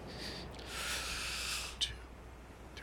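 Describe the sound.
A slow, soft breath in through a guided breathing exercise, drawn over a four-second count: one long airy hiss lasting over a second, fairly faint and steady, followed by a small click.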